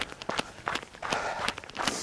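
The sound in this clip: Footsteps of a person running outdoors on a Sunday evening, a quick, steady rhythm of regular strides that stays fairly even in loudness.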